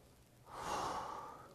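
A single deep, slow breath in during a guided prayer exercise. It swells gradually into a long, soft, airy inhalation and stays fairly quiet throughout.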